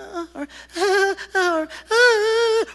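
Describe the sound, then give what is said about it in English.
A voice imitates a child's whining with a few drawn-out, nasal, tonal whimpers separated by short gaps, the last one the longest and loudest. “You can usually tell how a child's based on the intensity of the whining. You know, is it just,”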